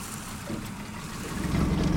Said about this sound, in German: das Boot schwankt etwas